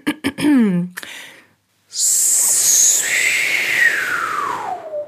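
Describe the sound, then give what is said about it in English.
A voice imitates the hiss of a heat pump expansion valve as refrigerant pressure drops rapidly. A brief vocal sound and a pause lead into a loud, steady breathy hiss lasting about three seconds, with a whistling tone that sinks toward the end. “that's a really good sound for the expansion valve. You can almost imagine a spray can.”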